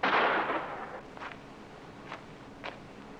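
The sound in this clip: A gunshot rings out during a tense film noir confrontation: one loud, sharp blast that decays over about half a second, followed by a few faint clicks or steps. No voices.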